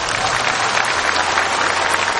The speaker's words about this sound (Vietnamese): Cho tràng pháo tay nữa.